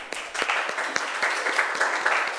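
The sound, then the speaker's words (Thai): Applause from a class clapping for a student: a dense, steady patter of many hands that holds at an even level for the whole clip, with no voices over it. “ดีมากปรบมือให้เพื่อนหน่อยครับ”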